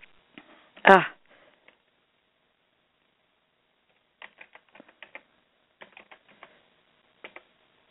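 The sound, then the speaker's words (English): Fast keyboard typing to sign in to a website comes in short, rapid flurries of light key clicks separated by pauses, after one loud, brief burst near the start. “just let me sign in. Trying to type too fast, I'm making mistakes.”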